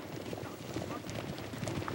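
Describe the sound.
Galloping horse hooves pound in a fast, steady run as a white horse closes in on the leading horse in a race, with many dense beats over a constant rough background.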